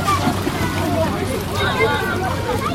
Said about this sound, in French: À quelques heures de la rupture du jeûne, une centaine de jeunes et enfants se plongent dans les eaux du fleuve Niger.